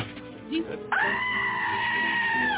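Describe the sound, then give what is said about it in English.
A goat bleats in one long, loud, wavering cry that holds steady for well over a second, following a moment of talk. “There he is. Love that goat. Don't hurt him.”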